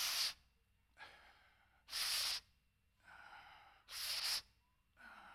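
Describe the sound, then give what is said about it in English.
A man's voice imitates the labored breathing of a ten-year-old boy: three loud, harsh, hissing breaths about two seconds apart, alternating with softer, rougher breaths in a steady rhythm. “This is the way he breathed through the whole sermon.”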